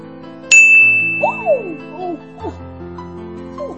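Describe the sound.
A phone's message notification chime sounds once as a bright, high ding that rings on for a few seconds, while people talk quietly beneath and after it.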